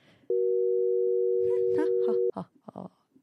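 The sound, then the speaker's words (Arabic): A telephone ringing tone sounds during an outgoing call: one steady, mid-pitched tone held for about two seconds that cuts off sharply, followed by a few brief bits of voice. “معايا اتصال تليفوني ونقول الو. بس استنى لما ترد”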